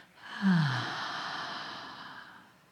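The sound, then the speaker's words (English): A deep breath drawn in through the nose and then let out, heard as a single long, soft, airy rush of breathing that rises quickly and then tapers gradually over about two seconds, with no talking. “Big breath in through the nose. And exhale.”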